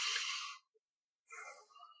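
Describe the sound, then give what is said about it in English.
Two deep breaths taken in and out, one in then one out, as part of a calming exercise: two soft, airy rushes of breath separated by a short silent pause, the second slightly rougher and fading gently. “Take a deep breath in and out first.”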